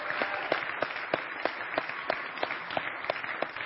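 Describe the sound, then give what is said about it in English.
Audience applause welcoming home a United States Army soldier at a morning gathering, a dense, steady wash of many hands clapping with regular sharper accents running through it, holding at an even level from start to finish. “Can we give Cody Hallam a great big hand as we welcome him this morning?”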